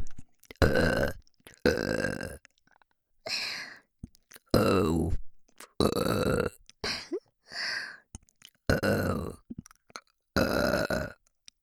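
Consecutive burping: many loud, throaty belches in a row, each a short burst separated by brief silences, some deeper and some higher-pitched.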